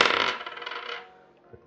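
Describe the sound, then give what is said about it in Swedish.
Three dice are rolled together, making a bright clattering rattle that fades out over about a second, followed by a faint click. “Titta, då får vi alltså 3. Det är alltså, då ska vi rulla 3 tärningar här.”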